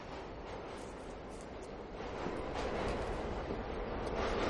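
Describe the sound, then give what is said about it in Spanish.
A train pulling into a station and setting off, a continuous broad rumble with rattling wheel and carriage noise that grows somewhat louder and fuller toward the end, with no voices. “un tren hacia su entrada en la estación. El tren se pone en marcha.”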